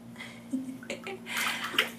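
A body is washed with water in a bath, with soft irregular splashes and sloshing that grow busier toward the end, over a faint steady low hum.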